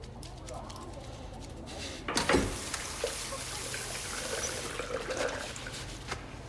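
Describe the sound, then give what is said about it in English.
Water runs and trickles steadily as a man washes blood from his hands in a service station washroom, a faint continuous stream with a brief louder splash early on and small splashes after. “He washes the blood from his hands.”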